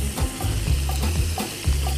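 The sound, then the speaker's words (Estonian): Salsa stirred together in a small container, a steady run of rhythmic scraping, swishing strokes over a constant sizzling background. “Ja samal ajal ma siis segan selle salsa kokku siin, väiks siis karbis.”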